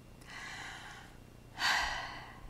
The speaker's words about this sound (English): Third, take a breath.